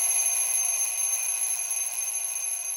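Continuous ringing of an old mechanical alarm clock, a harsh, shrill bell that holds steady at full loudness for the whole clip with no talk.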